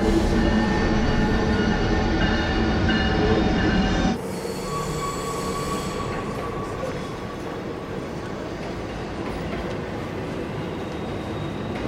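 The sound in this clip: A train standing at a station as passengers step off: a loud, steady rail rumble with high squealing wheel tones that cut off after about four seconds, leaving a broad, continuous rushing noise.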